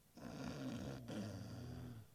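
A dog snoring in deep sleep, one faint, drawn-out raspy breath with a short break midway, low and steady throughout.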